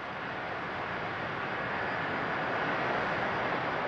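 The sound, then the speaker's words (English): The Concorde prototype rolls out of its hangar at Toulouse in March 1969, giving a steady, broad engine-like roar that holds even and grows slightly louder toward the end. “On the 2nd of March, 1969, the aircraft was rolled out of its hangar at Toulouse to make its debut.”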